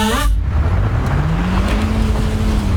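An old car engine strains to climb a hill, a steady low rumble that runs throughout while its engine tone slowly rises in pitch.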